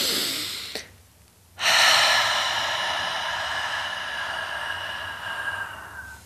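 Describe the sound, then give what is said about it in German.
Slow, deliberate breathing with a short airy inhale, a brief pause, then a long, steady hissing exhale about twice the length of the inhale that gradually fades, with no talk. “Du kannst ganz wunderbar einfach einatmen und die Ausatmung einfach doppelt so lang machen wie die Einatmung.”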